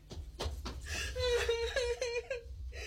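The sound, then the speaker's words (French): A girl cries in a tense dramatic scene. Short whimpering sobs build into a sustained, wavering, high wail, then break into uneven catching sobs. “Assez, assez. Arrête de pleurer.”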